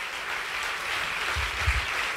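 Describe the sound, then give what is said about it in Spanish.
A church audience applauds during a service: steady, dense clapping throughout, with a few low thumps near the end. “¿Habrá alguien que pueda aplaudir mejor a Dios en esta hora?”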